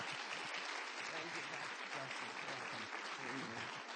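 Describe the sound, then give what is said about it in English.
Warm applause from a standing church audience welcoming a guest speaker to a Harvest Time service. Dense, steady clapping fills the whole clip with some voices mixed in. “would you please stand on your feet and give your very warmest Harvest Time welcome to our dear friend, Dr. Cindy Trim.”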